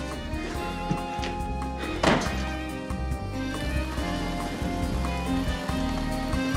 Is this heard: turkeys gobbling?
no

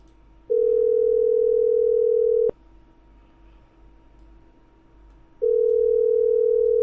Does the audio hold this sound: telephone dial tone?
yes

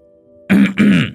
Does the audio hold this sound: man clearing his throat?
yes

